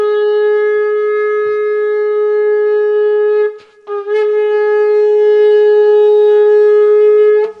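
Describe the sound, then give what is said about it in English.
A shofar sounds two long, loud, steady blasts of a bright, reedy tone, with a brief break and a short stutter before the second blast. No voices are heard. “There is something about the sound of the shofar that's heavenly, isn't there? It just cuts through spiritual boundaries. It's a sound of breakthrough.”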